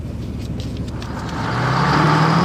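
A car sets off and drives away, its engine rumbling steadily before rising in pitch and growing louder as it accelerates, with no talk over it.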